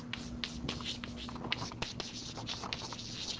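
Writing on a board during a physics lecture makes a faint, continuous scratching, dotted with small ticks and strokes, with no talk over it.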